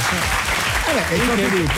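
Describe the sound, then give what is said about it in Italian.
Applause greeting a guest: continuous, dense clapping at a strong level, with people talking over it through the second half. “Salutiamo Mike, buongiorno, che salutiamo con un applauso.”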